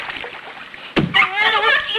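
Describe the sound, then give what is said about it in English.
A hand bangs the surface of water, throwing up one sharp, loud splash about midway through, followed by a sustained, voice-like tonal sound. “He bangs the water, splashing wildly.”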